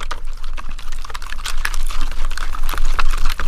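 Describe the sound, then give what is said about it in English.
Wet sloshing and swirling as two liquids are stirred together to make slime, the mixture quickly thickening. A loud, continuous churn is broken by rapid, irregular scraping and clicking strokes throughout. “you're just going to give some stir, stir, stir. So we're just going to add some energy so that both of the liquids combine. Oh, it got thick right away.”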